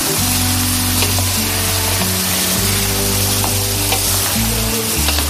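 Potatoes frying in a pan give off a loud, continuous sizzling hiss that stays steady throughout, with a low droning hum running underneath.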